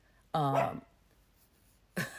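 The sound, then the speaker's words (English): A dog barks, a single short, voiced bark that stands out against a quiet background, followed after a pause by the start of a second bark at the very end. “Sorry about my dog barking.”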